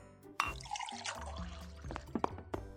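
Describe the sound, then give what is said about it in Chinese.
Water is poured, a faint, steady trickle broken by a few sharper drips and splashes. “倒水这种事交给我来做就好了，明明我才是女仆嘛，这种事交给您的话，我会过意不去的。”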